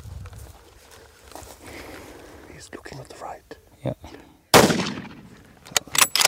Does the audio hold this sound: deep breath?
no